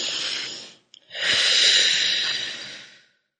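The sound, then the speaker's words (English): A deep breath taken as part of a calming exercise for anger: a short airy inhale, a brief pause, then a long, steady, audible exhale that fades into silence, with no talk over it. “Take a deep breath.”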